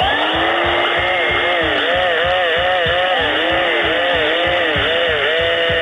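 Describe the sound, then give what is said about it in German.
An electric drill and a vacuum cleaner are played as comic instruments, their loud motors whining in swooping, rising and falling pitches over a steady, rhythmic low pulsing. “Heute zwei Instrumente, die out sind und wohl auch für immer out bleiben werden. Der Staubsauger und die Bohrmaschine.”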